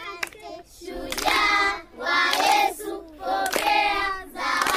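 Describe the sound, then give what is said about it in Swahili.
Audience clapping in short rhythmic bursts, a few sharp claps standing out over loud, sustained voices that rise and fall in waves. “Jipongezeni basi kwa makofi matatu, si mnayajua?”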